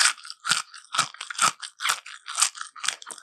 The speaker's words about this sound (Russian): Это йогурт. Опять же, какой-то овощно-ягодный хруст.